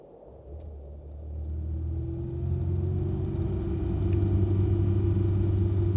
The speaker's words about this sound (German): Ich habe ein Fahrzeug aus den 70er Jahren des 20. Jahrhunderts bestellt. Ein Automobil. Oder wie man damals abkürzend sagte, Auto. Mit Verbrennungsmotor.